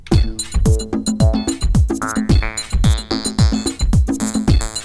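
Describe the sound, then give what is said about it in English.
Self-made drum beat with punchy kicks that drop sharply in pitch, crisp hits in a steady driving rhythm and layered tonal notes, loud and alone with no talk. “So I created a drum beat. I started off with a drum beat,”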